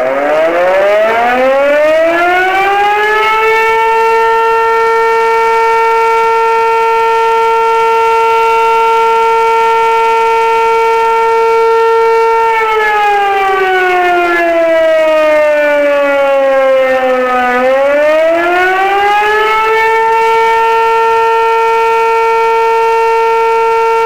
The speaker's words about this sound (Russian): В проверке также принимают участие со звуковыми сигналами автомобили пожарной части, отдела полиции и поисково-спасательного подразделения.